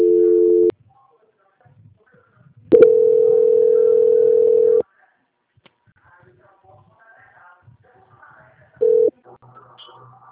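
Telephone tones while a bank call is transferred to quality control: three steady, mid-pitched beeps, short, then a long one of about two seconds, then short, separated by near silence with faint low noise.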